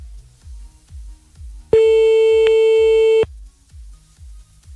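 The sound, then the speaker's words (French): Telephone ringback tone on an unanswered call: a single long, steady beep lasting about a second and a half, loud over a low, regular pulsing beat that continues before and after it. “Allez hop, c'est parti, on y va, on appelle maintenant.”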